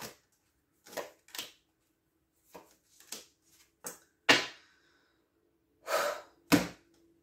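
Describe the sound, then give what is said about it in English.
Tarot cards are pulled and laid down, several soft, sharp slaps and taps scattered unevenly across quiet stretches, with no voice present. “I'm going to pull some more cards.”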